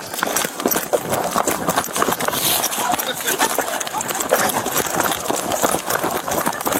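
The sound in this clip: A piglet's trotters clatter in a rapid, loud patter as it runs while being chased, with voices talking over the scramble.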